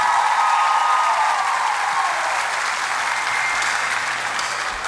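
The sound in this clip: Audience applause for a sertanejo singer: dense, steady clapping that holds at an even loudness for about five seconds and eases off slightly at the very end.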